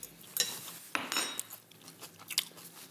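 Crisp crunching bites and chewing as someone tastes a salad seasoned with caraway, with light clinks of cutlery and dishes. A few sharp crunches stand out among softer chewing sounds, with no talk.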